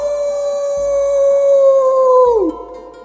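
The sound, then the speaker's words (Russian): A single long wolf-like howl from a girl throwing her head back to the sky. It holds a steady, clear mid pitch for over two seconds, then bends sharply downward and cuts off. “И вдруг она завыла, запрокинув голову к небу.”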